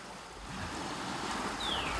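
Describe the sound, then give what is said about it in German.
A soft, steady rushing noise comes through an open window and may be the sea. It is a faint, even hiss that swells slightly, with no talk. “Das könnte das Meer sein.”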